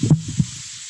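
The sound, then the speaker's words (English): Food sizzles in a cooking pan as a faint, steady high hiss, broken early by a couple of soft low thumps. “That's her cooking.”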